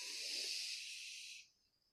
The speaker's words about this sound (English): Slow exhale, let that shit go.